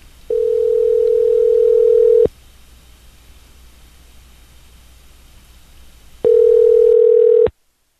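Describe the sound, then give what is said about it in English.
Ringback tone of an outgoing telephone call: two long, steady single-pitched rings, each about two seconds, separated by roughly four seconds of faint hiss. No one speaks. “Are you sure the phone's ringing? Phone's ringing, dude.”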